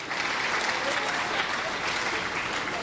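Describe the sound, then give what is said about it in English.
Applause for an honoree at a public event, a steady dense round of many hands clapping at even loudness throughout, with faint crowd voices mixed in. “Mr. Richard Osei Bonso, give him a round of applause.”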